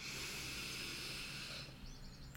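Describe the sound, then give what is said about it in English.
A deep breath drawn in through the nose makes a long, steady, airy hiss at low volume that fades off toward the end. “we are going to start off with a beautiful deep breath in through your nose and out your mouth. So breathe in”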